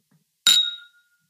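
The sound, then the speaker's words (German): A single clink of wine nosing glasses touched together in a toast during a wine hike: one bright, sharp strike with a clear ringing tone that fades over about half a second, alone in quiet. “Ein herrliches Geräusch. Wir haben heute die schönen Nosinggläser der Esslinger Weingärtner.”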